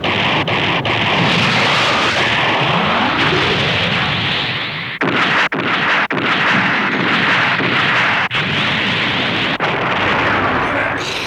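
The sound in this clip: Loud cannon fire from a mega particle cannon shooting at the rear, a dense roar of heavy blasts that runs almost without pause, broken only by a few brief drops.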